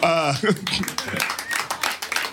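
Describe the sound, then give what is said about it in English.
Thin, scattered applause comes from a studio audience. The brief, light clapping follows a spoken voice at the start. “I didn't know that was gonna get. That's half an applause.”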